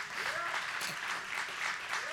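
Audience applause, a dense and steady wash of many hands clapping that stays loud and even for the whole short stretch.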